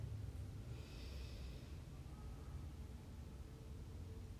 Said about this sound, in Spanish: Inhala profundo por nariz.